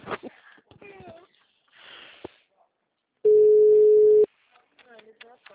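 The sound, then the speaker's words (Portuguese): A phone call rings unanswered as a single steady, low-pitched ringback tone that holds for about a second, with people talking before and after it. “Mãe, sempre assim, quer ver como ela não atende?”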